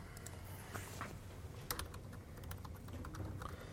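Soft, quiet typing on a computer keyboard, a steady run of light key clicks with no pauses.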